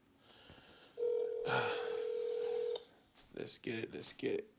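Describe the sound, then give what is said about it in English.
Telephone dialing tone: one steady electronic beep holds for nearly two seconds, then a voice starts talking after it stops. “Okay, let's dial up. We're calling.”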